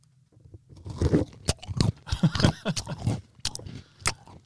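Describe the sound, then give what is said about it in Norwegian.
Someone bites into and chews a crunchy cake man: a few sharp cracking bites among a run of grinding, crunchy chewing, with no talk. “Det var lyden av en nydelig kakemann,”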